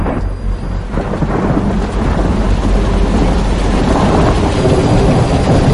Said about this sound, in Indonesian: Hingga siang itu hujan turun sangat lebat.